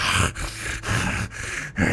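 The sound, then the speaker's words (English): A voice imitates heavy, noisy breathing of a pot-bellied man eating bean protein slop from a bowl: a steady run of loud, rough breaths, each separated by a brief pause. “just like doing the heavy breathe while he's eating it”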